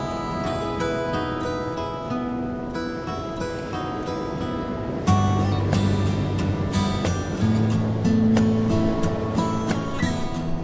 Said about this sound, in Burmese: ပင်လယ်ကြီးသည်ဖိုးသားတန်ကိုကြားသည့်အလားလှိုင်းတန်တဝုံဝုံဖြင့်မြူးထူးနေလေသည်